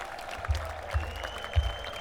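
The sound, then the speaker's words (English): Festival crowd applauding the volunteers: steady, dense clapping with a few low thumps at irregular points. “Are you in a little bit of an applauding mood? Because you need to applaud all the volunteers who have made this weekend great.”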